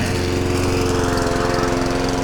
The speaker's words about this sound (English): Yes, she is. It's happy run the lawnmower day.